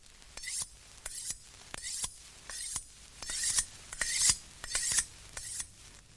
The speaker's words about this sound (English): For instance... sharpening a knife...